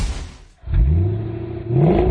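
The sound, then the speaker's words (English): Engine revving from a 1970 Plymouth Cuda AAR: a low, throaty V8-style growl climbs in pitch twice, each rev loud and rough, with a brief dip between them. “that's a nice car. Yeah, man. What is it you're driving there? Is that a Cuda? Yeah, it's a 1970 Cuda AAR, actually.”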